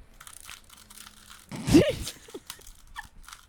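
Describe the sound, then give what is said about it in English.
Plastic clicking and a crunchy twisting burst as a Rubik's Cube is scrambled, faint rapid clicks surrounding one louder grinding turn. “I'm just mixing it up. Listener who's listening and not watching, I'm just wrecking the Rubik's Cube, mixing it up.”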